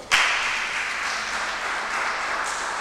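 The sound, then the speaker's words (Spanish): Applause for a family named at a numbered prize draw: clapping starts abruptly and then carries on as a steady, even wash of many hands until the end. “Familia Soto Palma. Un aplauso.”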